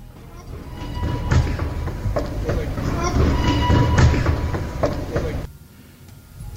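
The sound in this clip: A metro train rumbles in a subway station, a loud, building clatter with scattered thuds and metallic knocks that stops abruptly near the end, leaving a quieter hum, while people talk.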